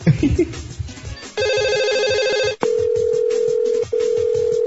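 A telephone call tone sounds as someone is called back. After a short noisy start, a steady buzzing ring tone holds, breaks off, then returns as a continuous higher tone with one brief gap.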